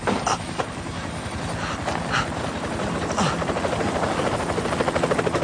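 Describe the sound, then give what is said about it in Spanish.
Helicopters landing some distance away, their rotor blades producing a rapid, steady thudding over a broad engine roar. The pulsing grows slightly stronger and more distinct toward the end. “Los helicópteros aterrizan a cierta distancia”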